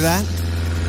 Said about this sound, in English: single-engine aircraft far overhead.